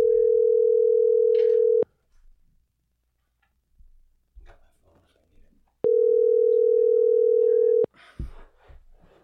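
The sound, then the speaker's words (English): Telephone line tones while a call is dialed out: two steady, mid-pitched tone bursts of about two seconds each, separated by a pause with faint clicks and low noise. “We are dialing up here Mike Coley.”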